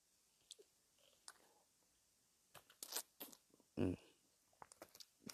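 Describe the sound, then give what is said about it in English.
Someone chews and eats food: faint, crunchy bites and wet mouth sounds come in irregular bursts, with one louder crunch near the middle, against near silence. “I think I'm going to eat that one. It tasted weird.”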